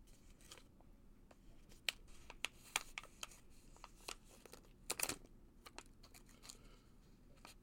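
Scissors snipping into a hard, stubborn package, giving many sharp, irregular clicks and crisp crunches at low volume, with a louder cluster near the middle and no talking.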